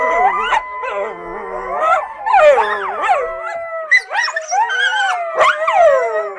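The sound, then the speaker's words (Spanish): Coyotes howl at night in an overlapping chorus of wavering, high-pitched howls that rise and fall, broken by sharp yips and short barks, loud and with no human voices. “en las noches, entonces uno escuchaba el sonido de los coyotes.”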